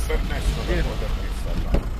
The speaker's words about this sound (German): Zuerst aber müssen sie es schaffen, das Auto zu wenden auf dem engen Feldweg.